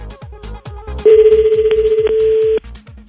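A telephone rings unanswered, one long ring burst of rapid, evenly pulsed trilling that ends abruptly, heard over a steady, rhythmic low thumping beat.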